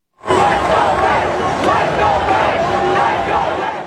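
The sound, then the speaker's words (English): A large crowd roars along New York City streets during a ticker tape parade up the Canyon of Heroes for the NBA champion Knicks. The massed noise breaks in suddenly after a brief silence and stays loud, with shouts mixed into it. “large crowds lining the streets ready to salute the NBA champion New York Knicks with a ticker tape parade up the Canyon of Heroes. It's drawing huge crowds and a massive law enforcement presence.”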